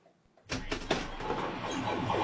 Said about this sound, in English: you're greeted by neon lights, the whirls and bells of pinball machines